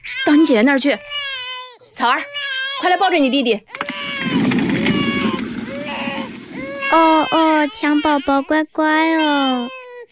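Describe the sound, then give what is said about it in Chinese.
A baby cries loudly in a domestic scene, with repeated wailing bursts that rise and fall in pitch and short breaks between them, plus whimpering sounds. “哦，哎呀，哭哭，你只晓得哭。”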